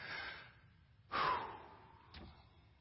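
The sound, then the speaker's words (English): A deep breath in and out by a speaker at a church pulpit: a faint, airy inhale surges and trails into a softer, fading exhale, with a small extra puff near the end. “Breathe. Focus. In. Out. Obviously, we all breathe.”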